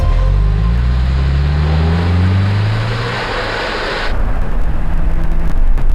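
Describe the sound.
A car engine starts and drives off, its low hum climbing in pitch as it revs, then giving way to a steady loud rushing roar.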